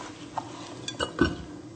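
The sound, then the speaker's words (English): An olive-oil-coated food mixture is dumped into a baking dish, giving a few faint clinks and soft scraping knocks of utensil against the dish, with no talking. “So now we're gonna finish mixing it all up and make sure that it's all really oily from the olive oil. It has to be all over it. And we can just dump it right into our dish, our baking dish.”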